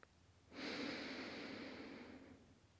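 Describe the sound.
One slow inhale through the nose, a soft, airy rush of breath that swells quickly and holds for under two seconds before easing off, faint and alone.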